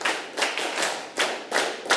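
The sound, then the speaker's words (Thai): Children clapping hands on a teacher's command in a classroom, a few bursts of sharp claps, one group strike at about a second and then quick repeated claps, moderately loud with no talking. “ปรบมือหนึ่งครั้งปรบมือหนึ่งครั้งปรบมือสิบครั้ง”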